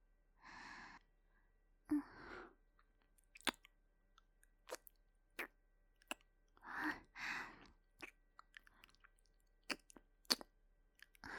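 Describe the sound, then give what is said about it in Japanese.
Soft, wet kissing sounds from a woman playing a gentle mother comforting a crying child, many short close smacks spaced irregularly, with breathy sighs and exhalations between them in an otherwise quiet setting. “泣き虫の君には優しいママからのキスをたっぷりあげますからね。”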